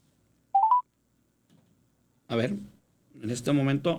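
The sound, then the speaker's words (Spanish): Telephone keypad tones as a call is redialed: a quick run of a few short beeps, then a pause before a voice begins talking. “A ver, vamos a volver a marcar. A nuestra compañera.”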